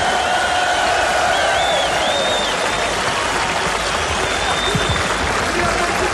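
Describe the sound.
A concert audience at a live summer tour show applauds loudly for the string players, violins and cellos, on stage. Dense, steady clapping mixed with crowd noise runs without a break from start to finish.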